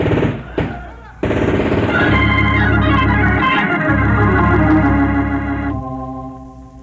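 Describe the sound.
Machine-gun fire in a battle with a rebel boat carrying guns and explosives: a few short bursts, then a long stretch of loud, sustained rattling fire, with what sound like raised voices mixed in.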